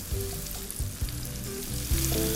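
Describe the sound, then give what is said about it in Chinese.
Hot oil sizzles and crackles steadily as popcorn chicken deep-fries in a small pot, with a few soft bumps over the continuous frying hiss. “好来哦，你看哦，我先炸一半就好，因为锅子不够大。”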